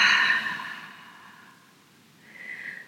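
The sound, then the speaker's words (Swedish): A slow exhale through the mouth during a relaxation breathing exercise: a soft, breathy rush that starts strongest and gradually fades away, with a fainter breath sound rising near the end. “vi andas in genom näsan och vi fyller upp magen med luft som en ballong. Och släpper ut munnen, nej, släpper ut luften långsamt genom munnen.”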